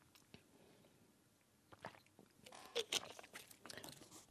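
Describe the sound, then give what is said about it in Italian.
Drinking sounds from a person pausing mid-reading to take a drink: soft, faint mouth and swallowing noises with a few small clicks and gulps in otherwise quiet surroundings, with no talk. “Scusate, devo bere perché altrimenti non riesco a continuare. Un attimo soltanto.”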